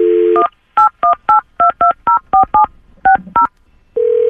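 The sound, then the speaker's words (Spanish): Touch-tone telephone dialing: ten short, bright beeps in a quick, even run, with a slight pause before the last two. A steady tone comes just before the digits and another starts right after them. “vamos a marcar a Javier Carpintero a ver qué averiguamos.”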